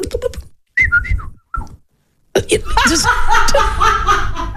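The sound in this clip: A person imitates a New Zealand tui's song, opening with an odd noise and then breaking into whistled, warbling high notes, with bursts of laughter around the imitation.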